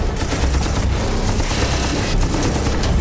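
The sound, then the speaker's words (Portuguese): A giant mech's arm-mounted gun fires a dense, unbroken barrage of heavy, rapid blasts that stays loud from start to finish. “O meca apontou seu braço e atirou.”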